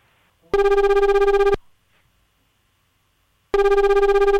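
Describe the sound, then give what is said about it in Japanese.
Telephone ringback tone heard while a call is being dialed: two loud, steady, buzzy rings, each about a second long, separated by a silent pause of about two seconds. “かけてます、電話中です。”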